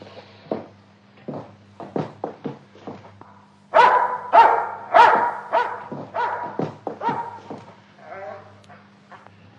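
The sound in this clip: A small dog barks over and over in sharp, uneven bursts. The barks grow louder and more tightly grouped midway, then ease into a looser run of barks.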